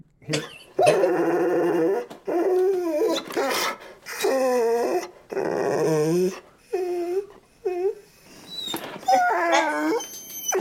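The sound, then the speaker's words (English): A dog whines in many high, wavering whimpers, each rising and wobbling in pitch. The cries come in uneven bursts separated by short pauses, with some sharper yips among them. “Well, I bet that's your dog. You know what it was? That was my dog named Rooster. Wait a minute. What was he doing right there? He was whining.”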